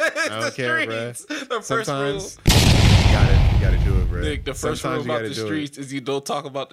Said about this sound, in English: Sometimes you gotta just shoot it in the air. Sometimes it's going on so loud. I don't know. It should have stopped by now. But I think one more.